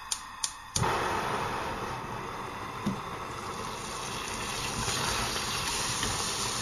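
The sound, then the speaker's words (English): Butter melting in a hot pan while making a lemon drizzle cake: a few sharp clicks at the start, then a steady, even sizzling hiss that carries on alone at moderate loudness. “Melting the butter.”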